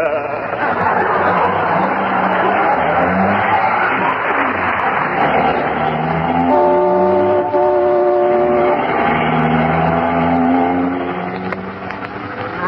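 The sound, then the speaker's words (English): A car speeds through traffic with a loud, steady engine roar. Sustained blaring tones sound over it midway, and the roar eases slightly at the end. “Isn't he driving awfully fast, dearie? I'll say he is. We just went through a stoplight.”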